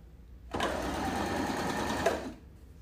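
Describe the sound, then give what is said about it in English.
A sewing machine stitches a straight strip of patchwork in one steady, even whirring run of about two seconds that starts abruptly and stops, with a brief click near the end. “I just did my back stitch and now I'm just gonna do one strip straight up.”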